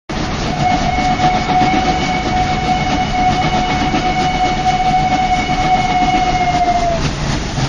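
A train pulls into a station platform, its steady rumbling roar carrying a long, sustained whistle-like tone that holds level for several seconds before cutting off near the end.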